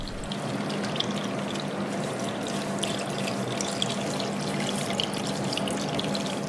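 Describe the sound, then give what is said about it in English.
Water pours steadily during a hair wash at a busy natural-hair salon in Douala, Cameroon, a continuous, even rushing stream with no talking. “Here it is a normal busy day of natural hair washing, drying and styling”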